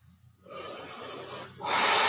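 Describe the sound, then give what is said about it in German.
Deep breathing in and out, two long airy hissing breaths with no talk, the second one louder and brighter than the first. “Ich atme tief ein und aus.”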